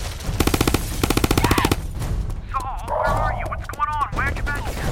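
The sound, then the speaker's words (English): Rapid automatic gunfire rips out in two loud, fast bursts of tightly spaced shots during an attack from a roof. Frantic shouting voices follow, with no further shots. “I'm under fire!”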